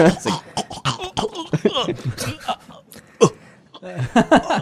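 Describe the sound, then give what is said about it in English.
A person's voice imitates a cat vomiting with a string of throaty, retching gulps and hacking bursts, uneven in rhythm and broken by short pauses, with chuckle-like sounds mixed in. “What's your best vomit sound, Cap? Oh, that's a cat vomiting. That's a sorry. Cat vomiting. No. That's the only vomit sound I know.”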